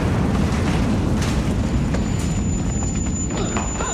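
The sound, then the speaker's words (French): A grenade explodes among a small troop of soldiers in a city street. A loud, deep, continuous roaring rumble carries through the whole stretch, with rough crackling noise above it and no voices. “Il envoie la grenade au milieu de la petite troupe de soldats”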